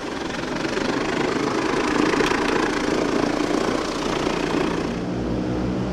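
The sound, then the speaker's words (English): The piston engines of a B-17 bomber drone during its 75th-anniversary flight. The roar is loud, dense and continuous, with a steady low rumble throughout and no voices. “fly a B-17 out of Willard to mark its 75th anniversary.”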